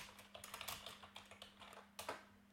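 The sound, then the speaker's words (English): Keys clack on a computer keyboard, a quick, irregular run of soft taps at low volume over a faint steady hum. “I like how I typed in 7 and West, and it just auto-filled it for me.”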